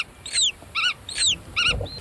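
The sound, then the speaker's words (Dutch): Black-tailed godwit parents call to chicks still in the egg. High, down-slurred whistles alternate with short, stacked, buzzy notes, a few calls in a clear repeating pattern, loud and without talk. “En wat je hier hoort zijn grutto-ouders die rondvliegen en communiceren met hun jongen in het ei. Die hoor je dus vanuit het ei reageren.”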